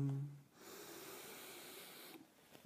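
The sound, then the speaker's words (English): Slow, deep inhalation during a guided stress-relief breathing exercise: a soft, steady, airy breath lasting about a second and a half, quiet and alone. “Let's take a slow, deep breath in.”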